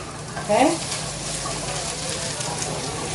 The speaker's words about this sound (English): now I'll add the onions in, and the garlic.